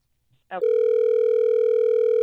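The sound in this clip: Telephone dial tone cuts in after a brief click as a call is placed: a steady, loud, unbroken electronic hum that holds one pitch, with nothing else heard.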